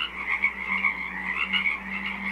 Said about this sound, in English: a 24-hour broadcast of the sounds of a small wetland on Saturna Island, British Columbia